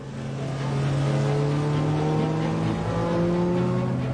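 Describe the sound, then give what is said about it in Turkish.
A car accelerates hard with a loud, sustained engine roar whose steady tones climb slightly in pitch over about four seconds, with no voices. “Geçmek istiyorsan bas gaza. Tam anlamıyla bas gaza.”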